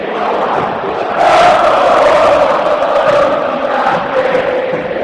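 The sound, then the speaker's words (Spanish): Football crowd roaring at River Plate's Monumental stadium, a loud, sustained mass of chanting voices that swells just after the first second and holds strong to the end. “Sonó la Rey Momo y vino la primera emoción. Escucha. Escucha el Monumental. Sentite en la cancha de River.”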